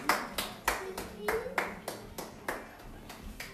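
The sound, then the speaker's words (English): Hand clapping during a game of Simon says, a steady series of sharp, separate claps at a brisk, regular pace. “Simon says, clap your hands.”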